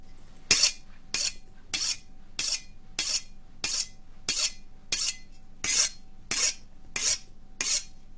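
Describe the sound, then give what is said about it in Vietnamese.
A knife being sharpened: twelve harsh, rasping metal strokes in a steady, even rhythm, each a bright scrape separated by a short pause. “Lão bắt đầu mài dao xoèn xoẹt xoèn xoẹt, tiếng mài dao nghe đến lạnh cả người.”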